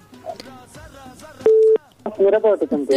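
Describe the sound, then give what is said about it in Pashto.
A telephone tone interfering on a call: a single loud, steady, mid-pitched beep of about a third of a second cuts in amid a singing, harmonically rich voice. “دا دغه غږم پکې راځي که نه د تلیفون د مصروفوالي دا تلیفون لږ مصروفه ده”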